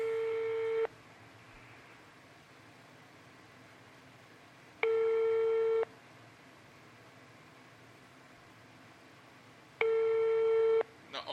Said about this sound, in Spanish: Está sonando, está llamando en este momento.